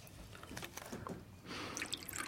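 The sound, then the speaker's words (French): Tea poured into a cup, a soft liquid trickle with a few bright drips and splashes that swells into a fuller, steadier pour in the second half, moderately quiet throughout. “Une tasse de thé, cher ami? Je vous en prie.”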